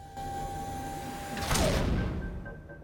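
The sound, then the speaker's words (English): A safe's front panel swings open after an electronic button is pressed, with a soft whooshing slide rising out of a faint steady hum partway through. The sound is quiet overall. “He presses it and the front of the safe opens.”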